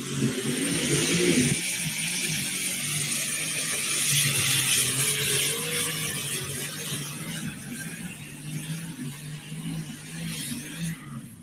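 A pulling vehicle's engine roars as it drives out of the track at an outlaw pulling competition. The loud, gritty, sustained engine sound holds steady for several seconds, then eases gradually lower toward the end.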